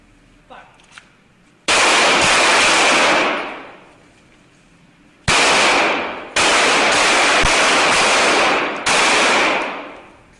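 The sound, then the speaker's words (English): Gunfire during firearms training: four loud, rapid bursts of shots, each a harsh, sustained crackle that tails off, separated by brief pauses. “Why was she firing a gun?”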